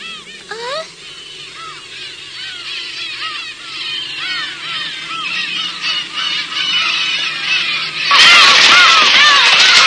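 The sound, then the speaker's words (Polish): A fleeing flock of birds gives many overlapping honking calls in a dense, busy chorus, then a sudden loud burst of rushing noise takes over near the end. “Widziałeś te ptaki? Przed czymś uciekają.”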